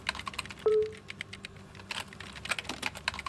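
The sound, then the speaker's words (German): Commands are typed on a Plexiglas keyboard: quick, irregular, light key clicks throughout, with a short electronic beep near the start. “Stellas Vater tippte Befehle in ein Keyboard aus Plexiglas.”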